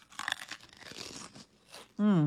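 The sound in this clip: Crisp, crackling crunches of a beer-battered onion crisp being bitten and chewed, a burst of dry snapping textures, then a short pause before a voice gives a loud, humming sound of enjoyment.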